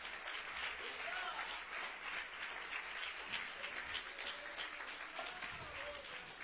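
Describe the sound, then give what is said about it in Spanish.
Applause from a church audience during a sermon: a steady, dense wash of clapping that runs through the whole clip, fairly faint, with some voices mixed in. “¿Le puede dar un aplauso a Cristo en esta tarde?”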